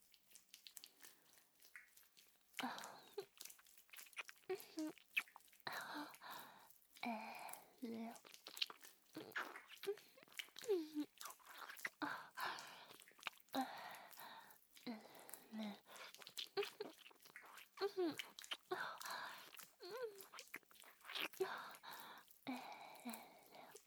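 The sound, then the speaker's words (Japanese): Deep kissing with tongues gives many faint, wet smacking and squishing mouth sounds in an irregular rhythm, close and quiet throughout. “可愛すぎるからキスしてあげようかな。と舌を絡める濃厚なキスを。”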